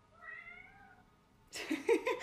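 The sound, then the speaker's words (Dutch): A cat meows once in a long, drawn-out call, followed by a louder, rougher burst of noisy sound. “Kat geeft antwoord.”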